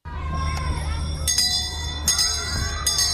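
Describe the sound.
School bells ring in a few bright, metallic strikes with lingering overtones, heard over a steady low murmur like a crowd.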